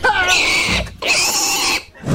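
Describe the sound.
A pig gives two loud, harsh squeals with a grunting edge. Each lasts nearly a second, and a brief gap separates them.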